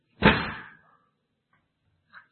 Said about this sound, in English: And finally, the door's locked. So animals, you need to move in, because we're going to lock you in.